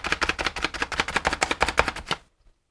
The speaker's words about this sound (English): Just chops it up just into little chunks.